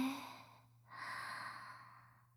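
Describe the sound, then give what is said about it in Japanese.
A deep, slow breath drawn in during a guided relaxation exercise, soft and airy, lasting over a second after a fainter breathy hiss. “ゆっくり深呼吸しましょうか。3回大きく深呼吸します。吸って”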